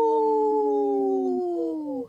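A wolf howls in one sustained, tonal call lasting about two seconds, holding a steady pitch before sliding slightly downward and cutting off, with no other sounds around it.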